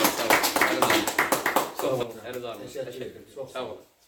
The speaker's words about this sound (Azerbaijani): Aşığımızdan bir alqışlayaq da sizin əlinizdən.